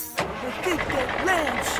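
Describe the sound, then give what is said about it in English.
A hotwired primitive landship's engine cranks and starts, a mid-pitched mechanical rumble that settles into a running drone, with a voice talking over it. “If I hotwire this primitive landship, I can make it through town swiftly and safely, save my friends, and be the hero they deserve.”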